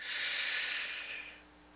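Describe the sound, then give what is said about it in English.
Deep inhale taken during a guided breathing exercise, a steady, airy hiss held for over a second before fading out. “Let's start by inhaling.”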